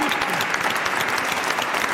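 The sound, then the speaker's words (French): An audience applauds a guest, with dense, steady clapping from many hands, loud and continuous throughout. “On n'a pas applaudi déjà, Daniel Rosis.”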